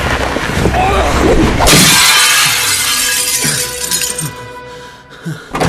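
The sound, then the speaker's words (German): A mirror is smashed: one sudden, loud shatter of breaking glass, followed by scattered smaller clinks as the pieces settle. “Ich habe den Spiegel zerbrochen.”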